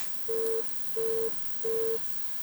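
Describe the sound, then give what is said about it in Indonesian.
Busy tone after a WhatsApp phone call disconnects: three short, evenly spaced beeps at one steady pitch, each about a third of a second long, moderately loud over faint hiss. “Ini ada dari penelpon WhatsApp. Halo, assalamualaikum. Ini terputus ki.”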